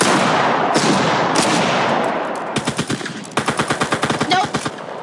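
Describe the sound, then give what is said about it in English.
Rapid bursts of automatic gunfire from a video game: loud, fast shots in a dense rattling rhythm, following a stretch of steady noise. “Shoot him. You shot him. Shoot him.”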